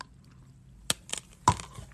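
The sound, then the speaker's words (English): A spoon stirs coffee in a cup, giving a few brief clinks and scrapes. Sharp taps are separated by quiet gaps, with no talking. “sorry if you keep hearing like the stirring, I'm stirring my coffee.”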